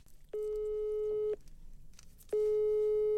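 Ringing tone on a telephone line while a call is being placed. Two steady, even-pitched beeps of about a second each are separated by a pause of about a second, and a third begins near the end and continues.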